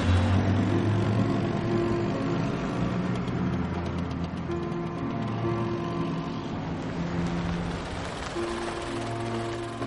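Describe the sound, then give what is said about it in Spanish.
A taxi drives through busy city streets, giving off a steady, unbroken drone of engine hum and road noise that holds at an even level for the whole clip with no clear separate events. “viaja en un taxi por las bulliciosas calles de la ciudad”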